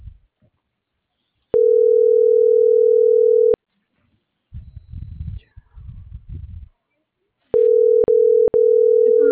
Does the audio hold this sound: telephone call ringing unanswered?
yes